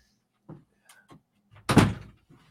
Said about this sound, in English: Heard a door.